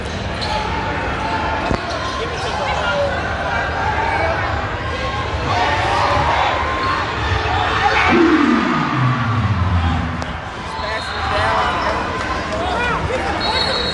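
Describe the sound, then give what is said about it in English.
Crowd noise fills a basketball game between the Golden Lions and Jackson State, with a ball bouncing on the court beneath a constant murmur of people talking. “I'm at the basketball game.”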